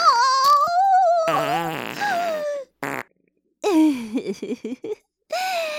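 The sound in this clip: Farts: long, buzzing, pitched blasts with a wavering tone, followed after a short break by a string of brief sputtering bursts and one more drawn-out blast.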